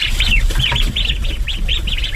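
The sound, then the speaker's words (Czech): Ducks calling just after being fed at a farmstead in the Šumava region: many short, arched, chirpy calls repeat in a steady stream over a low rumbling background. “Lada Wagnerová právě nakrmila kachny.”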